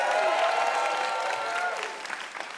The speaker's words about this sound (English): All right. One more hand for Steve Guttenberg.